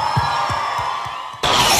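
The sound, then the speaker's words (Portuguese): Cheers and whoops from a crowd at a sertanejo music show ride over a pulsing low beat, then a burst of applause and shouting abruptly fills the final moments. “Salva de palmas pro Lover!”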